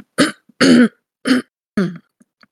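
A person clearing their throat and coughing: four short, rough bursts at uneven intervals with quiet gaps between them and no talk.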